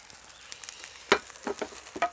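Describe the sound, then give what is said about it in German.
Food is frying in a pan, cooked a minute or two on one side. A faint, steady sizzle carries a few sharper crackles and pops, with no talk. “ein, zwei Minuten braten von der Seite und dann sind sie auch schon gut.”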